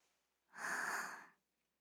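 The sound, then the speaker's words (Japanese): A single slow breath is drawn in through the mouth. It is a soft, airy inhale lasting about a second, faint and heard on its own, with no talk around it. “口から息を、ゆっくり吸って。”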